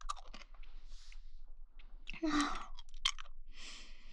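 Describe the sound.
Close, quiet mouth noises of someone sucking on a throat lozenge: wet smacks and soft clicks, with a louder, crunchy burst of moist sounds partway through.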